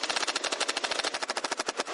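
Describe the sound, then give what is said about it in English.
Nerf toy gun firing foam darts in a fast, continuous burst: many sharp, evenly spaced pops run together into a loud rapid-fire rattle for about two seconds, with no voices. “turned his engineering eye on the Nerf gun. Shoot.”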